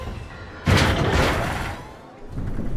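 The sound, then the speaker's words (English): A lift hurtles backwards and then shoots upward after its gate closes: a sudden loud rumbling boom gives way to a sustained whooshing roar that slowly fades, then swells slightly again at the end. “The gate closes. The lift hurtles backwards, then shoots up.”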